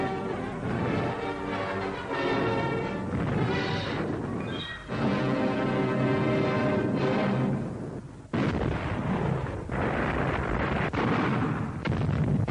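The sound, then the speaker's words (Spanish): Machine-gun and light artillery fire meets troops and tanks landing from boats at a river mouth during the D-Day landings: a dense, continuous roar of blasts and rattling bursts, loud throughout with only brief dips. “An Land gehende Truppen und Panzer werden sofort mit Pack, MG und leichten Geschützen bekämpft.”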